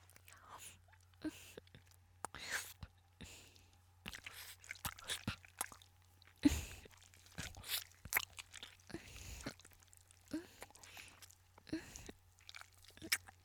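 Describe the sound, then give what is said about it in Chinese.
Someone quietly crunches and chews a popsicle, with many soft, irregular bites and wet mouth sounds over a low, steady hum. “我在吃冰棍，这里的冰棍还不错。”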